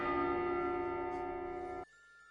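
A church bell strikes midnight, a single sustained metallic toll ringing with a rich steady tone before it cuts off abruptly.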